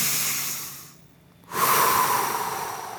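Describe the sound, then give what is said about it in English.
A deep breath drawn in, a loud breathy rush of air that swells suddenly after a brief near-silent moment and holds steady, following a fading exhale at the start. “I want you to take 3 deep breaths. Ready? Here we go. In.”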